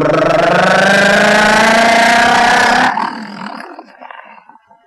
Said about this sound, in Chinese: 马上钻进汽车，奔车门关上。马达轰鸣，嘟嘟嘟嘟嘟嘟嘟嘟